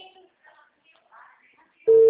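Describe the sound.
Telephone busy signal cutting in abruptly near the end as a loud, steady electronic tone, after a stretch of faint, quiet talk.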